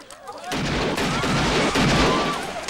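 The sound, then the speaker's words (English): An honor guard fires rifles into the air at a funeral. A sudden loud burst of gunfire opens into a sustained, roaring crackle that stays dense for about two seconds. “The honor guard fire rifles in the air.”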